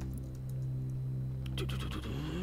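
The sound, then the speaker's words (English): A generator in a video game starts up while low on fuel, giving a steady low engine drone with a buzzing harmonic hum throughout and a burst of rattling, clattering noise in the second half. “There isn't much fuel, but the generator starts up.”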